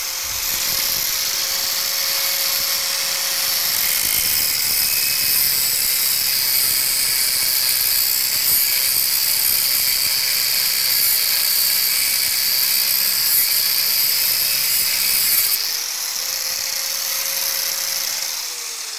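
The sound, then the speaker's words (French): An angle grinder cuts through 25 mm round metal bars and throws sparks: a loud, steady, high-pitched grinding whine for about nineteen seconds, the motor's tone dropping as the disc bites and rising again near the end. “Et puis, on mettra l'axe dedans. Avec la meule. Avec la meule, oui. Attention aux étincelles.”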